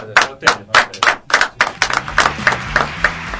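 Applause from an audience at an event for a band, about a dozen sharp, evenly spaced claps in a steady rhythm, loud at first and gradually blurring into softer, overlapping clapping toward the end.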